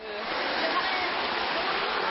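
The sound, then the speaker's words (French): Steady rushing water from a small countryside stream as water is collected from it, a continuous even hiss with no distinct splashes standing out. “je viens de récupérer de l'eau du Verderet qui passe à Hébin”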